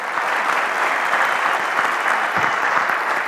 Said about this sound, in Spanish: quiero realmente dar un fuerte aplauso y felicitaciones para el equipo